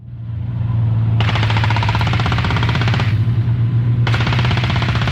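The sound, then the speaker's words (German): Rapid automatic gunfire at a military firing range on the Swedish island of Gotland, during a Swedish and NATO exercise. Two long, loud bursts of fast, evenly spaced shots are separated by a brief pause, over a steady low drone. “Auf Gotland wird nun, wie hier auf dem Waffenplatz Tofta südlich von Visby, wieder geschossen.”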